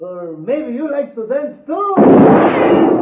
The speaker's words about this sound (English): He's good with guns. Very good, senor. You just shot the gun from my hand.